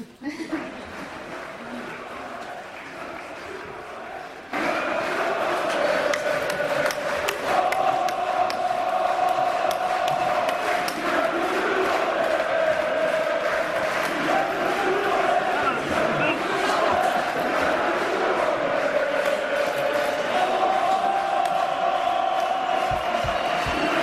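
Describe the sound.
A protest crowd chants olé under pepper gas during an uprising in Turkey. Massed voices roar loudly and steadily, rising sharply after a quieter opening few seconds and holding on without pause.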